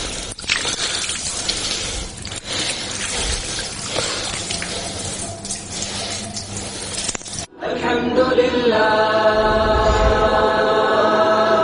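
Water poured while a deceased body is ritually washed: a loud, steady rushing and splashing stream that breaks off briefly, then resumes as a fuller, more even gush.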